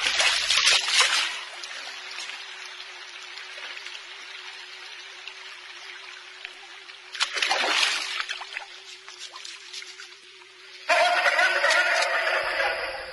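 Water trickling and splashing as a man washes and shaves at a pond, a steady wet patter with louder splashy bursts near the start, around the middle and near the end, over a faint constant hum.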